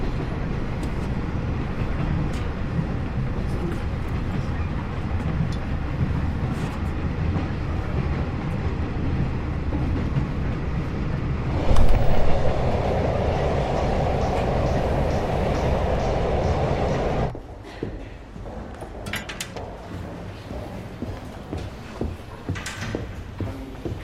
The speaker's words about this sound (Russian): Мать едет на поезде.